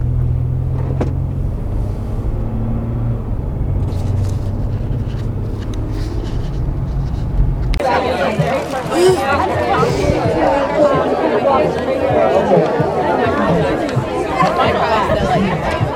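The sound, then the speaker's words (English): Crowd ambience of runners at a race start: a low rumble under murmured voices, then a sudden shift to busier babble from many people talking at once. “you will be privy to some race sounds and runner ambiance”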